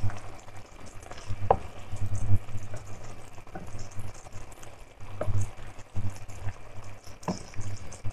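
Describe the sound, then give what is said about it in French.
Food sizzles in a pan as it is stirred after a tablespoon of an ingredient is added. The crackling frying hiss is steady and continuous, broken by a few brief clicks of the utensil against the pan. “je vais mélanger.”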